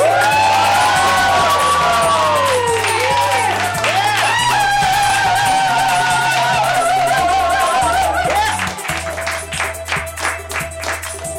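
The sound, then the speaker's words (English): An audience cheers and whoops over loud music during an energetic stage entrance at a live show premiering a theme song. Rising and falling whoops and shouts sit over a steady beat, and the crowd eases off near the end while the music pulses on. “I think they cheered over the theme song.”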